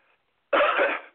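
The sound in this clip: A single short, harsh cough from a man, loud and abrupt after a near-silent start, fading quickly.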